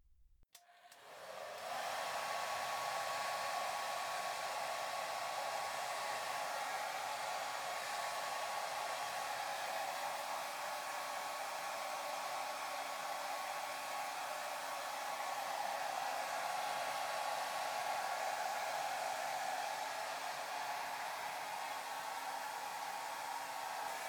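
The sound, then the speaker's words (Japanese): A hair dryer drying hair starts up and settles into a loud, steady whirring rush of air that runs unbroken for over twenty seconds. “はい、じゃあ乾かしてくね。”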